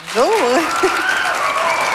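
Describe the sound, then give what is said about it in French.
Audience applause for a guest being introduced on a show: steady, dense clapping throughout, with a voice whooping and calling out over it near the start. “On l'applaudit?”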